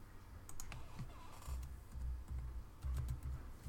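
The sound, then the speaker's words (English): Keys click faintly on a computer keyboard as someone types into a browser tab, a few soft taps over a low, rumbling background. “Then in another tab, type in Tandy Newton.”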